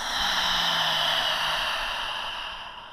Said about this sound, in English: Breathe in. Exhale it all.